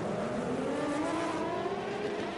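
GTP prototype race cars, among them Porsches, roar through a track's fountain section just after a feisty race start, producing a loud, continuous engine drone that holds steady throughout.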